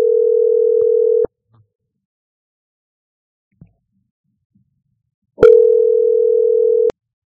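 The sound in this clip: Telephone tone heard while placing a call: a steady, loud, mid-pitched tone sounds for about a second, cuts off into silence with a faint click, then returns for another second and a half before stopping abruptly.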